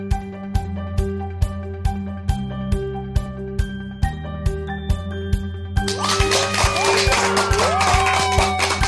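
Applause and cheering burst in for the final few seconds, dense and fairly loud, over a steady rhythmic music track that plays alone with regular beats before the clapping begins.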